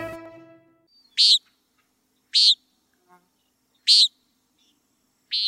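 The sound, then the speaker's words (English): A common nighthawk giving four sharp, buzzy, high-pitched calls, each very brief and separated by long gaps of near silence. “That's the call of the common nighthawk.”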